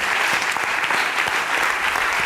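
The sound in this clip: A church audience applauds during a service, with dense, even clapping that holds at a steady level throughout and no voices on top.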